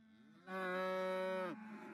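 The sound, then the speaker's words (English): A cow moos on a 500-acre cattle farm in South Gloucestershire: one long, steady, harmonic bellow of about a second, with a quieter low lowing before and after it. “Cattle here have been looked after by Will's family since 1939.”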